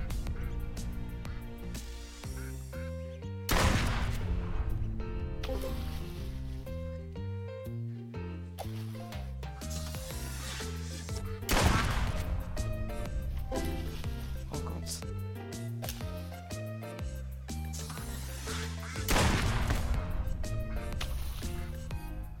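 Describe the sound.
Gunshots in the video game Duck Season: three sharp blasts spaced several seconds apart cut through a steady, looping tonal game backdrop.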